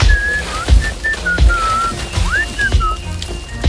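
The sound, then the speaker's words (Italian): A person whistles a simple tune of short, clear, high notes, one sliding upward, over a steady hiss of noise with occasional low thuds. “come può fischiare? I rami non sono pesanti per lui?”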